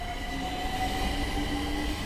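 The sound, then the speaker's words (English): An arriving Tehran underground metro train built by a Chinese company gives a steady, dense rumble with faint, thin whining tones drawn out above it, continuous and without pauses. “And we waited for an arriving underground train.”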